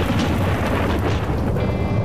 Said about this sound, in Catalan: Va ser aleshores quan va caure un llamp formidable